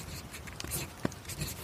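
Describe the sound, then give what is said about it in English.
Scratching of a pointed pen dipped in ink as it writes, a faint run of dry scratches with a few sharper strokes. “You're right! Someone is writing!”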